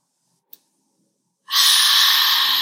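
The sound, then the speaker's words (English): A deep inhale during a calming breathing exercise: after a short silence and a faint click, a loud, steady rush of breath begins and holds to the end. “We're going to take a deep breath on five. Inhale.”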